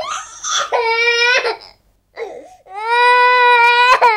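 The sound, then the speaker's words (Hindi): A baby crying as a sound effect for a birth scene: two loud, high wailing cries separated by a short silent gap, the second one longer and steadier. “हाँ भाई, जन्म का scene है तो बच्चे को रोना तो चाहिए ना।”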